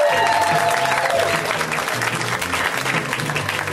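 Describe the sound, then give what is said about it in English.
Audience applause for a comedian at a stand-up comedy show, dense steady clapping from a crowd that carries on throughout, with a few cheers near the start. “Let's hear it right now for Emily Heller, guys. Give it up for Emily.”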